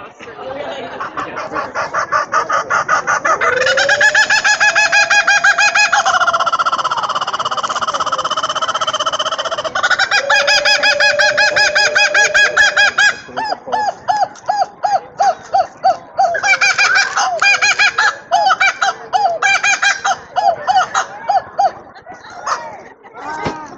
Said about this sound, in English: Set the alarm, they squeeze the bird, he screams.